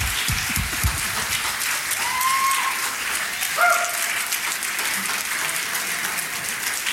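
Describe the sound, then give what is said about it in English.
Audience applause welcoming a pastor onto the stage: dense, steady clapping at even loudness throughout, with a couple of brief whistle-like tones rising above it midway. “put your hands together and give a really warm welcome to Pastor Jeff Johns as he comes tonight”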